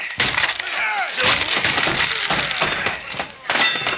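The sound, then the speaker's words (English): A wooden door is being broken down, with loud continuous crashing, cracking and splintering wood, interspersed with heavy thuds over about four seconds. “Let's bust it in. Come on, man, let's break it down.”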